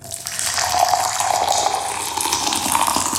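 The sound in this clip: Water running from a tap in a steady, continuous hiss of flow, fairly loud and unchanging, with no pauses or other sounds.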